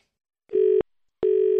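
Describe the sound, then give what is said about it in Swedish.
Telephone tones sound as a call is placed to a hotel in London: two steady, buzzing tone bursts of equal pitch, each under half a second, separated by a short silence. “Okej, nu ringer vi till London.”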